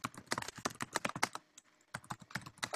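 Rapid keystrokes on a computer keyboard as someone types a message. The clicks come in two quick, uneven bursts separated by a short pause, with no talk.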